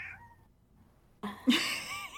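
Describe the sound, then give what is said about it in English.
A female pet cat meows, a faint short chirp followed by a louder, drawn-out meow with a wavering pitch, heard on its own. “you hear that? Yeah, I have a special guest today. My cat is here, so if you hear any meowing, it's her.”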